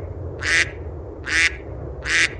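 A duck quacking three times, with evenly spaced, loud, nasal quacks over a steady low background rumble and no speech.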